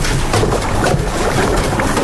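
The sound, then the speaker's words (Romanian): A boat arrives to take passengers ashore for Orotava, heard as a loud, continuous churning wash of water and wind noise with no clear breaks. “Iată și barca.”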